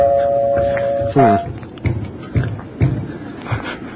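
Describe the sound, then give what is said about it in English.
A doorbell chime rings near the start, a steady tone followed by a short second note, before voices and scattered thumps take over. “Now why are you ringing the doorbell?”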